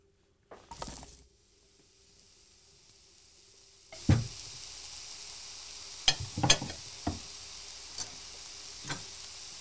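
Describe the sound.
Mushrooms sizzle in butter in a pan with a steady, soft hiss after a quiet start. A few sharp clacks from stirring punctuate the frying.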